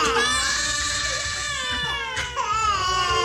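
Babies crying together in a daycare: loud, continuous high-pitched wailing with overlapping cries that hardly pause across the whole stretch, dipping briefly before surging again.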